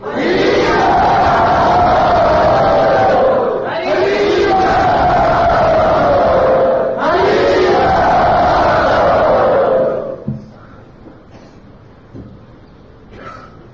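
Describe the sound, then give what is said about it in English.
A crowd loudly and enthusiastically chants "Hari Bol" in three long, sustained group shouts, each sliding slightly downward in pitch, before the sound drops to a faint murmur. “So let us welcome Shravananda Prabhu by very loudly and enthusiastically chanting Hari Bol.”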